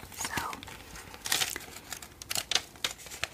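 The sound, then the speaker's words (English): Paper wrapping is crinkled and torn away from a clothing package in many quick, irregular crackles and rustles. The sound is fairly soft, with a few sharper, brighter crinkle bursts scattered throughout. “so I removed the paper.”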